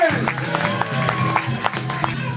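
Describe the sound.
An audience at a live comedy show in Southend cheers and claps, with voices calling out over a bed of applause and scattered sharp claps.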